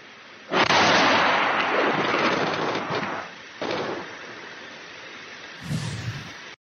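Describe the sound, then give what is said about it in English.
Patriot missiles explode as they fall on residential areas of Kyiv. A loud, booming blast rolls into a long rumbling decay, followed by a second, weaker burst and then a short third one. “That was Ukraine bombing itself with Patriots, which are falling all over Kiev.”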